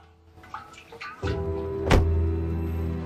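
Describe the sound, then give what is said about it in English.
A car boot is opened late at night outside a warehouse to take out a petrol canister: a few soft knocks, then a thunk and a low steady hum, followed by one loud, sharp clunk. “gets out of her car outside the warehouse and retrieves a canister of petrol from the boot.”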